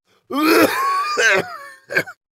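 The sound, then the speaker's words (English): A man's dry, raspy coughing, voiced and rough, comes in three bursts: a long harsh one, a shorter one, then a brief final hack. “he starts coughing a dry, raspy cough.”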